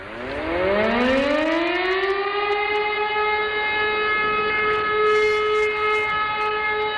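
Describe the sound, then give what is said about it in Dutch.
A civil defense air raid siren sounds during its monthly noon test. Its pitch climbs over the first two seconds into a loud, sustained wailing tone that holds steady to the end, with no voices. “Ja, dat maandelijkse luchtalarm op de eerste maandag van de maand om 12:00 stipt.”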